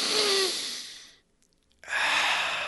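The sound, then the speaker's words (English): A deep breath: two long, loud, airy breath sounds separated by a pause of about half a second of silence, with no talk. “Okay, another deep breath.”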